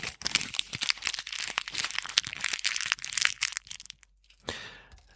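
Individually wrapped packaging crinkles and crackles in dense, loud bursts of sharp rustling. After a short pause, one more crackly burst follows.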